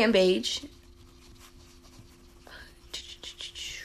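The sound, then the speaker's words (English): Faint scratchy pen-on-paper writing while a basketball starting lineup is written down: a few rough strokes after a brief voice at the start, over a steady low hum. “Then, you guys can hear me, like, writing.”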